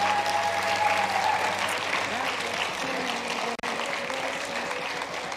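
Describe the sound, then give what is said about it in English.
A church audience claps to honour the fathers standing in the service. The hand clapping is dense and steady and lasts more than five seconds. “All the dads, give them a great big hand clap.”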